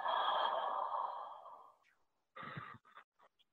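A person takes a deep inhale during a breathing exercise, heard as a long, loud, airy rush that gradually fades. A few shorter, fainter breathy bursts follow after a brief pause.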